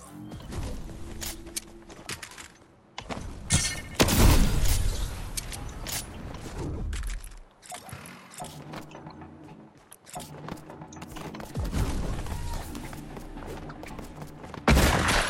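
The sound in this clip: Gunfire in a video game during a headshot: bursts of loud shots and booms mixed with mechanical clatter, repeating irregularly throughout with brief lulls between volleys.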